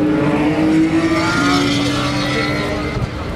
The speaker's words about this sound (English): The racing will resume. There's my Ferrari, sounding slick.